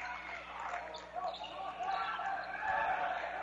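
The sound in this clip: A basketball being dribbled on the court during a Kearney Catholic v Boone Central Newman Grove high school game, a few low bounces under a constant wash of crowd noise.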